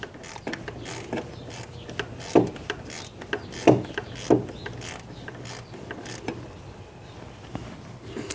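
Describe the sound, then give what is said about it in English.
Sporadic mechanical clicks and ratcheting come from work on a very loose belt tensioner pulley as its bolt is backed out. Three sharper knocks stand out midway, and the rest is faint, irregular metallic tapping, with no voices. “The belt tensioner is very loose. Let me see if the bolt is actually out.”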